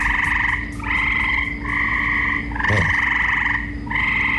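Frogs croak in a backyard pool overrun with tadpoles, a loud, dense chorus of buzzing trills that run almost continuously with only brief gaps between calls.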